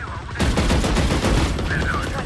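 Video game gunfire during a shooter match: dense, rapid, loud shots blur into a continuous crackling volley that lasts the whole two seconds.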